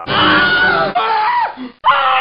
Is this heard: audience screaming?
yes